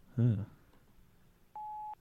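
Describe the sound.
A single short, steady, high-pitched voicemail beep sounds alone after a brief spoken word and a moment of quiet, just before a phone message is left.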